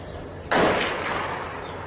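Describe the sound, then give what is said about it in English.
A single sharp shot from soldiers and tanks in Syria breaks out of near silence, loud and abrupt, then trails off in a fading rumble. “Now, if you were watching the video, there are tanks and soldiers in this, and you can hear, of course, the sound of shooting.”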